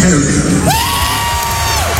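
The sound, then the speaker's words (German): A concert crowd on the Canadian side of Lake Ontario cheers loudly, with one long, high whoop rising out of the dense roar of shouts and yells. “Und das Publikum kanadischerseits hat es natürlich super abgefeiert.”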